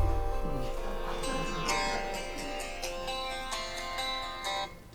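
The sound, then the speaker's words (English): A mobile phone ringtone plays a bright melodic pattern of repeating electronic tones, steady and moderately loud, stopping abruptly at the end. “That's my phone.”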